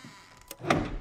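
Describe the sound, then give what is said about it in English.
Ceiling panel in a closet sliding shut: a faint, brief scrape ending in a soft, dull thunk. “She opens the closet and switches on the light. A panel in the ceiling shuts.”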